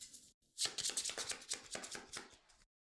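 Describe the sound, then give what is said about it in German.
Quick shuffling of a board game's patrol cards: a rapid, dense run of crisp papery riffles and clicks lasting about two seconds, alone without talk. “So, mische nur ganz schnell die Patrouillenkarten.”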